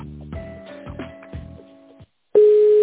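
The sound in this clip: Telephone line tones play while a call is transferred: a short run of pulsing tones, then a brief silence, then a steady, loud electronic beep at one fixed pitch that stops sharply.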